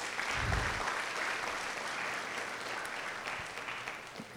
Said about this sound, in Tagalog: Pwede mong palakpakan natin ng Panginoon.